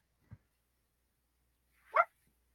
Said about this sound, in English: that's my dog piping in. He thinks you're on the mark too.